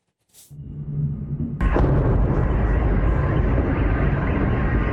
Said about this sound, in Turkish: Omuzuna atılan bir roketle bir Rus askeri SİHA'yı vurmaya çalışıyor.